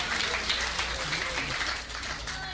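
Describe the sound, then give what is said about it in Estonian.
Congregation applause at a church meeting: a dense, steady wash of many hands clapping that holds at an even level for the whole stretch, with no voices standing out. “tahame selle eest tänada Jumalat, Jumalale au anda ja aplodeerida talle. Halleluja! Halleluja! See aplaus läheb Jumalale.”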